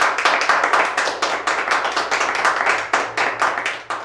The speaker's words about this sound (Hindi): जोरदार तालियों से इनका स्वागत करें।